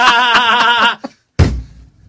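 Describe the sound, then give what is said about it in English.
A hand bangs once on a counter, making a loud, low thud that dies away quickly. It comes after a sustained, buzzy tonal sound with rhythmic pulses. “I'm going to go a day without banging on the counter.”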